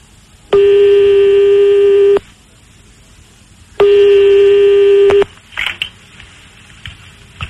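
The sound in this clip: Telephone line tone during a call: two long, steady buzzing beeps separated by a pause, then a few faint, brief clicks.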